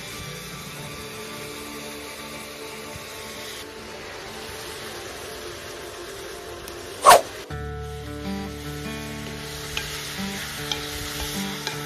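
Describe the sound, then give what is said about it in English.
Butter being stirred into seasoning while preparing a Thanksgiving meal, a continuous soft scraping and sizzling texture, broken by one sharp loud clack partway through. “I need the seasoning, Mike. I'll mix the butter in, and then we're just gonna let it cure up.”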